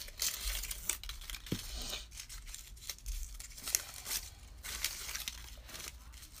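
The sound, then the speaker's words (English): Small pieces of cut paper being unfolded and handled: many soft, irregular crinkles, rustles and light tearing crackles, fairly quiet throughout and with no talking. “So cut it into little pieces. Now open up all those little pieces that you just cut.”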